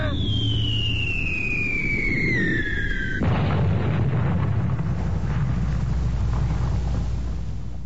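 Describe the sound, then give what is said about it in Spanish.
Gunfire and a wall-of-fire explosion in a wartime bombing raid: a high whistling tone slides steadily downward, then a sudden broad blast breaks into a sustained roaring rumble over a constant low drone. “¡Van a disparar! ¡Es un fogonazo verde! ¡Un muro de fuego!”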